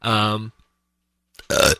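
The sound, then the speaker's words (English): A burp sounds in two short bursts separated by a brief silence: first a smoother voiced belch, then a rougher, gravelly one, both fairly loud. “talking about burp.”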